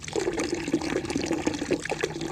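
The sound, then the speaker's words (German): Water splashing from a marble-clad apse in an exhibition: a soft, continuous bubbling trickle of many small splashes, fairly quiet and steady throughout. “Das Wasser, es ist nicht zu überhören in der Wiesbadener Schau. Schon beim Eintreten plätschert aus der marmorverkleideten Apsis Wasser.”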